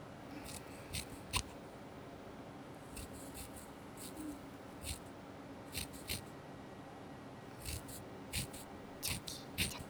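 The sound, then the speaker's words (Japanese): Scissors snip through hair while trimming someone's bangs, giving many soft, crisp cuts in irregular little clusters over a quiet, hushed background. “ご主人様の前髪を切る、”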